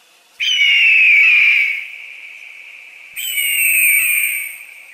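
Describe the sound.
A young eagle cries out in a rocky gorge, giving two long, high, steady whistling calls. The first trails off into a lingering echo off the rock walls before the second begins.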